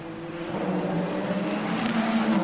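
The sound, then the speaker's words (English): A Ferrari race car engine drones on the track during a race, a steady, loud, buzzing roar with strong tonal bands that holds its pitch with only a slight rise. “The Ferrari of Alessandro Pecorini pushing along.”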